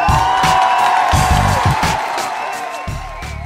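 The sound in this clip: Cheering and whoops rise from an audience, a loud, dense and continuous roar that holds across the whole clip and thins slightly toward the end.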